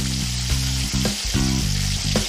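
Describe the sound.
Dumplings filled with beaten egg seasoned with soy sauce fry in a pan, giving a steady, loud sizzle with a few soft bumps and crackles mixed in.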